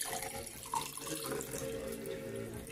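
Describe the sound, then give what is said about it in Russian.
Liquid poured in a steady, continuous stream during a small ritual, making a fairly loud splashing trickle with one brief louder burst early on and no voices. “Наливаем.”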